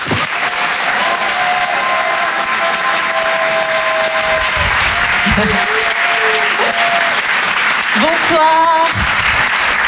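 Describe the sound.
An audience gives loud, continuous applause as a comedian comes on stage. Scattered whoops and cheers ride on top of the even clapping.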